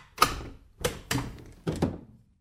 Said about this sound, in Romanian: Atunci iedul mezin, care acum era și cel din tâi și cel de pe urmă, sare iute și îi deschide ușa.